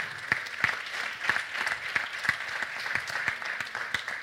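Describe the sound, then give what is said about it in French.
Scattered hand claps from an audience at a pitch competition event. Sharp, distinct claps arrive at a loose, fairly regular pace, fairly faint and without voices. “Donc on peut les applaudir aussi, s'il vous plaît.”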